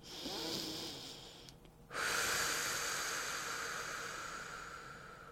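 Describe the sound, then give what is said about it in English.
A deep breath drawn in, airy and hissing: a softer breath first, a short pause, then a long, louder inhale that slowly fades. “Take a deep breath in. I know I need one.”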